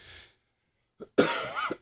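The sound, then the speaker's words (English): Coughing: a brief cough, then a longer, rough bout of coughing, fairly loud and with no talk. “Excuse me once again. I apologize in advance for coughing.”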